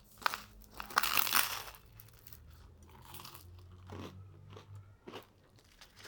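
Crisp biting into French bread topped with grated parmesan, olive oil and oregano and grilled on a barbecue: a loud crunch near the start, then quieter chewing, crackling and crumbly crunches.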